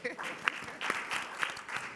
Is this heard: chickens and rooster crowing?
no